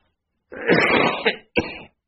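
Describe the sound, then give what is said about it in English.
Someone coughing and clearing their throat in two rasping bursts, a longer rough one followed by a short one, with no talking. “I haven't been coughing all week, and now all of a sudden today I'm trying to clear out all the crap that's in there.”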